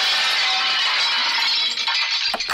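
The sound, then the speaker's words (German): Dishes crash and break on a canteen conveyor belt in a continuous, bright clatter of shattering crockery and glass. Sharper clinks stand out near the end. “Während unserer Fitnesswochen wird Ihr Fressen ab sofort auf dem Laufband ausgegeben. Sie hören es ja im Hintergrund.”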